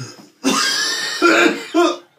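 Coughing from someone whose drink went down the wrong way: three harsh, raspy bursts, the first long and strained, the next two shorter.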